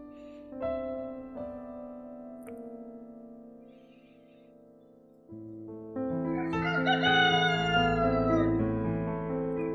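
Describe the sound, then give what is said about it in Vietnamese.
A rooster crows at dawn, a long, strongly tonal call with rich harmonics that swells louder and fuller in its second half, heard alone without voices. “Tiếng gà gáy sáng.”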